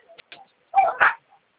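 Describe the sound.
Dogs barking: a few faint, high yips, then two short, sharp barks in quick succession, with silence between the sounds.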